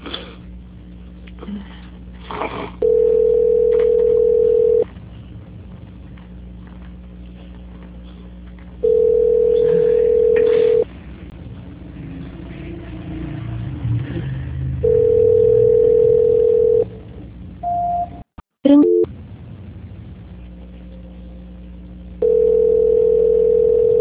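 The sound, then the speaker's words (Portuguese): A telephone line tone plays while a call is being transferred: four long, steady tone segments separated by quieter gaps, with a couple of short beeps in between. “Só um minuto, por favor, que eu vou transferir a sua ligação. Tá bom. Transferência.”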